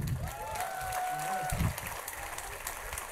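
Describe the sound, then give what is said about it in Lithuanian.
Audience applause welcoming the speaker of the Lithuanian Seimas, a soft wash of clapping running throughout beneath a sustained voice and a few low thumps. “Ponės ir ponai, pasveikinkim plojimais, laikykitės ten svečią, Seimo pirmininką ir kenkėją.”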